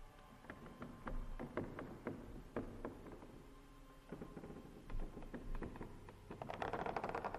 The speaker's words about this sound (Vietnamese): tiếng cào sột xà sột soạt lại vang lên ở sau nhà, nơi có cái giếng.